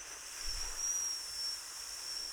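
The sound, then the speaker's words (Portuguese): A failed attempt at whistling: a steady, breathy hiss of blown air with a thin, high tone faintly threaded through it, held for about two seconds without forming a clear note. “Vou-vos mostrar o meu assobio. O meu assobio é isto.”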